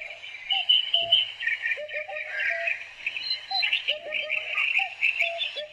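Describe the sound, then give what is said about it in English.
Eurasian hoopoe calling amid dense birdsong: short, low notes repeated in small groups beneath a steady chorus of higher chirps and trills. “That's the call of the Eurasian hoopoe.”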